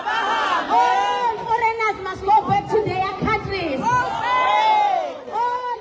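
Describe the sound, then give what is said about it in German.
Hundreds of anti-foreigner protesters in Durban chant and shout as they march through the streets. Loud massed voices rise and fall in rhythmic bursts. “Hunderte Demonstranten ziehen durch die Straßen von Durban, halten Schilder hoch, auf denen steht: Kommt und holt eure Leute ab. Immer wieder wird der Ruf laut: Aber Hambe, alle Ausländer müssen gehen.”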